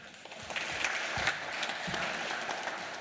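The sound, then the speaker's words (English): Audience applause welcoming a speaker, with many hands clapping steadily at a moderate level throughout. “Please put your hands together.”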